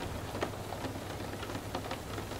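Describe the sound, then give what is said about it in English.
Steady rain patters against a window during a thunderstorm: a soft, even hiss of drops with a few slightly sharper taps scattered through it, quiet and unbroken throughout. No thunder stands out. “with the background sounds of the thunderstorm and rain at your window.”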